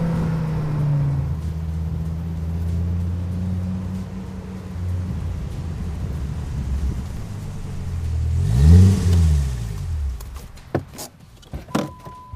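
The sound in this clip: A crude V10-engined car with a functional hood scoop: a steady, low engine drone swells into a louder rev whose pitch sweeps up and back down near the end, followed by a few sharp knocks.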